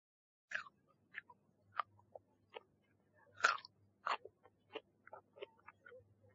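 Crisp, crunchy bites and chewing of apples come in many short, separate bursts at an irregular pace, quiet against near silence.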